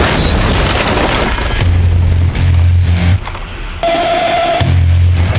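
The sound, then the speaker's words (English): A wooden door shattering in a dramatic scene: a loud, heavy crash with a deep booming low end and splintering debris noise, followed by rumbling impacts and a further burst of crashing noise. “The door shatters”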